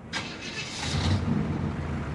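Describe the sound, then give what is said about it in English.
A moving truck pulls away, its low engine rumble and broad road noise holding steady, with a brief higher rush near the start. “A moving truck drives away, leaving the woman's belongings outside.”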